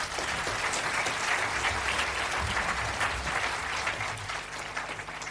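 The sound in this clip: Warm audience applause welcomes a guest speaker to the stage at a talk, a dense, steady wash of clapping that holds evenly at full strength for about five seconds, with no voices standing out.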